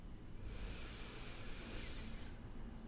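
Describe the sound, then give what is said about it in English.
One deep inhale of breath, soft and airy, lasts about two seconds and is heard alone against faint background hiss. “Inhale all the way down to your belly. Feel the air fill your lungs on the way up.”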